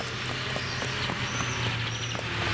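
Construction machines driving, giving a steady, loud engine drone with a low rumbling hum and faint tonal whines above it, continuous throughout with no talk.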